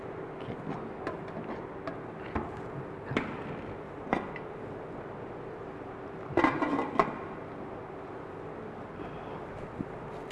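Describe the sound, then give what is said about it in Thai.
Steamed fish meat is scooped into a bowl, giving faint, sparse utensil taps and scrapes, with a brief cluster of louder clinks and clatter partway through. “ตัวนี้นะครับเราก็จะตักออกมาใส่ในภาชนะนะครับพักทิ้ง”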